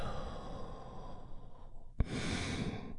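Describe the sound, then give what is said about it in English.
A deep breath in and a slow exhale, a steady, soft airy rush that runs throughout with one brief click partway through. “We are going to start the moment by taking a big, deep healing breath right now. Here we go. And release.”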